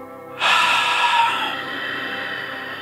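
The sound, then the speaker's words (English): A single long Ujjayi out-breath is exhaled through the nose, controlled by the diaphragm, with a sudden airy hiss that stays strong for about a second, then softens and trails off, with no talking. “what you'll do is you'll transfer the air from coming out of your mouth to coming out through your nose, but while being controlled by the diaphragm. And this is the Ujjayi out breath.”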